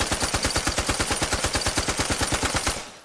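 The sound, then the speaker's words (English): Fully automatic M60 machine gun firing one long, loud continuous burst of rapid, evenly spaced shots that holds a steady rhythm and cuts off just before the end. “And then the last one I brought. Fully automatic. M60.”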